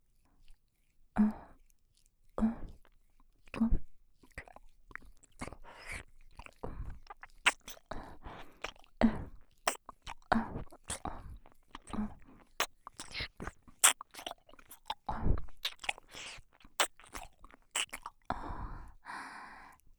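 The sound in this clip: Gentle nibbling near the ear in an ASMR session: many soft, short mouth clicks and crunchy little bites in an irregular rhythm, quiet against a silent background.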